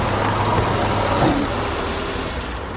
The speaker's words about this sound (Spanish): Luego van por un camino de tierra. Antonio detiene el vehículo y todos se bajan.